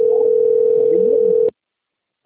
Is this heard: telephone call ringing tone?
yes

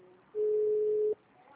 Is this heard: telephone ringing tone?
yes

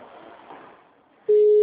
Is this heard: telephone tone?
yes

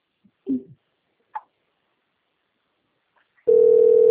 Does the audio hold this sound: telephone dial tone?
yes

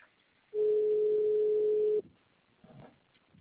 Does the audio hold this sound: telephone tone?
yes

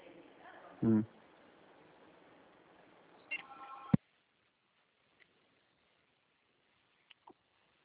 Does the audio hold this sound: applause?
no

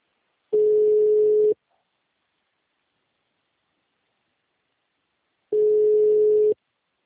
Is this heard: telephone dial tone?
yes

